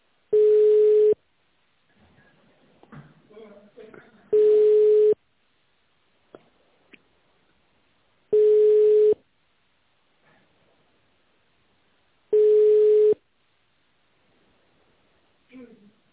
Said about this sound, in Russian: Ваш звонок переводится на менеджера.